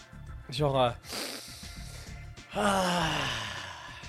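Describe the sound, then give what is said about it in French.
A person taking a big, deep breath, heard as two drawn-out, voiced sighing breaths with a noisy airy stretch between them, over a soft, regular pulsing in the background. “Moi, je prends une grande respiration.”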